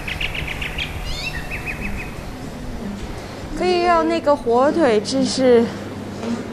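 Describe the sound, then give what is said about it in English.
Birds chirp on a nearly empty city street in Shanghai, giving a few series of short, high, repeated notes at moderate volume before a voice begins talking. “You can finally hear the birds sing.”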